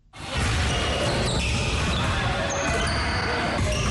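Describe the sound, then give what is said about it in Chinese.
Basketball dribbling on an indoor community court in Qingshanhu District, Nanchang, Jiangxi: rapid, dense bouncing thumps that hold steady throughout, under talk. “运球突破，起跳投篮，在江西南昌青山湖区社区体育馆内，市民们尽享运动乐趣。”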